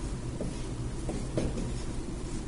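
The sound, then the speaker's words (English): Faint scratchy strokes of a marker writing a word on a board, a few short scrapes barely rising above a steady background hiss. “I'm drawing on the board the word test”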